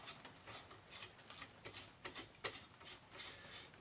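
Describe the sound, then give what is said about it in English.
A microphone holder is screwed onto the end of a boom arm, giving a faint series of many small rhythmic ticks and clicks as the threaded base turns. “Place the microphone holder at the end of the arm and rotate the bottom. It should spin around like a corkscrew and go inside.”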